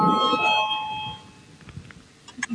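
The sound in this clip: An electric bell rings in a parliament chamber to call members to a vote. It gives a bright, steady tone that fades over about a second, leaving low room noise.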